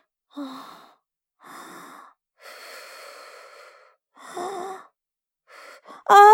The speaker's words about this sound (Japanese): 深呼吸するね。